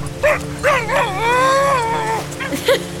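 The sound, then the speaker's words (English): Dog whining and whimpering: a few short, high, wavering whines lead into one long sustained whine that bends in pitch, followed by more short yelping whimpers, loud and clear. “What's that sound? Doggo!”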